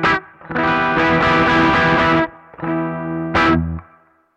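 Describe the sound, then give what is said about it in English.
Electric guitar with a higher-output pickup played through an overdriven amp: a few gritty, distorted chords. A long sustained chord rings out, followed by shorter ones that cut off abruptly. “Okay, so that was basically the same amp, same settings, everything, just the amp, just the guitars were different. And as you could hear, just that little bit extra output from the pickup has pushed the front end of the amp,”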